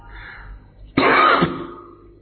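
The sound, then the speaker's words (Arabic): A single harsh cough after drinking lemon, bursting out suddenly with a raspy, throat-clearing texture and trailing off quickly into quiet. “الليمون هيخلينا أقعد أكح تاني”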